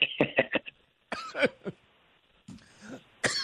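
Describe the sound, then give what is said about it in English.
Several rough, raspy coughs and throat clearing burst out in irregular clusters, broken by short silences and fairly loud against quiet surroundings. “I'm coughing and choking.”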